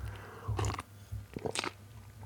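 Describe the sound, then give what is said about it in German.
Coffee being drunk, two short wet sipping and swallowing bursts separated by a pause, quiet over a low steady hum. “Ja, und ansonsten trinke ich mir einen Kaffee, weil ohne Kaffee läuft hier nichts.”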